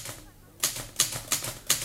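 Typewriter keys are struck in four sharp, crisp clacks at a steady, unhurried pace after a quiet opening.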